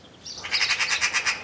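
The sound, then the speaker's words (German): A magpie gives a harsh chattering call, a rapid, evenly spaced run of dry, rasping bursts that starts softly and grows steadier, fairly faint overall. “eine Elster! Da verkrieche ich mich gleich in mein Häuschen. Weg mit dir, du gefräßiger Vogel!”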